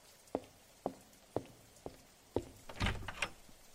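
Knocking on a door on a rainy night: five sharp, evenly spaced knocks, then a louder, longer clatter and rustle as the door is opened. No voices are heard.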